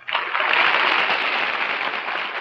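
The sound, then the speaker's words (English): Audience applause voting for contestant number one on a game show, where the loudest clapping wins. A dense, even wash of many hands clapping swells in quickly and stays loud and steady to the end. “For your applause for candidate number one.”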